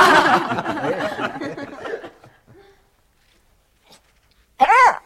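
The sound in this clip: A dog gives one short, loud, high yelp near the end, after a stretch of talking and a quiet pause.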